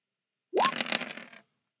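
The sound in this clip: A handful of dice rolled during a tabletop roleplaying game clatter in one brief rattling burst that starts with a sharp hit and trails off into scattered clicks, heard alone.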